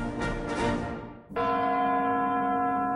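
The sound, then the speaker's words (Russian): A heavy strike of tower clock bells chiming in the New Year rings out after a stretch of dense noise, then holds a loud, steady, sustained tone that hums on to the end. “Сегодня под звон курантов мы встречаем Новый год.”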